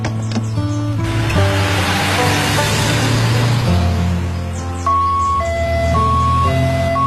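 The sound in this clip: An ambulance siren wails loudly and without a break, its steady, stepped tones held against a car blocking the road, with no talk over it.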